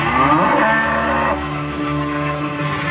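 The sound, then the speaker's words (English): A cow moos once in a long, loud, droning call that holds steady, then drops slightly lower and continues, with no other sounds over it. “Do you hear a cow?”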